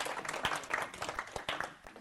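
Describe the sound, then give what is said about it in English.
Audience applause: a dense, steady patter of many hands clapping that fills the full two seconds at a fairly low level, with no other sounds standing out. “you can applaud for that,”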